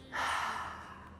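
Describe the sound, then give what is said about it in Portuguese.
A single soft, airy breath taken during a guided cardiac-coherence breathing exercise, swelling quickly and fading over about a second, quiet and unaccompanied by talk. “Inspira. Expira.”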